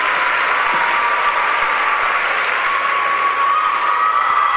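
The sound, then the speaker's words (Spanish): An audience gives a performer a round of applause: dense, loud, steady clapping that continues without a break from start to end. “Wow, gracias, wow. Fuerte el aplauso para Nahuel.”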